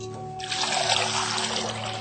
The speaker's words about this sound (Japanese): 水で洗ってざるにあげておきます